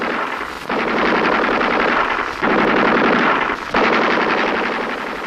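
An enemy machine gun fires in rapid, continuous rattling bursts, loud and harsh. Fresh bursts start with sharp jumps a few times, with no voices.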